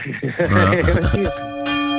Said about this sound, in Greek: παίξε τις καμπάνες